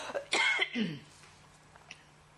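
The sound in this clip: A person coughs, with a couple of harsh bursts in quick succession and a short throat-clearing sound after them. Near-silence follows, with only a faint steady hum.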